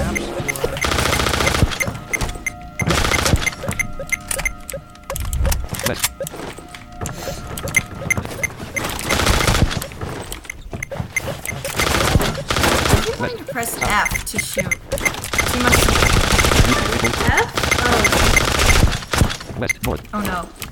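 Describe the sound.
Rapid gunfire in a video game, many sharp shots and bursts with crackling, shattering impacts, running almost constantly and loudly over the whole stretch while people talk over it.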